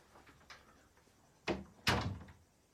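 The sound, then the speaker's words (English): A door being closed: a faint knock, then two solid thudding bangs in quick succession as it shuts, the second slightly louder and trailing off into quiet. “As she leaves and closes the door”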